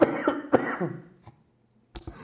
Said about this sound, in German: Einen kleinen Hustenanfall, den ich dir ersparen wollte.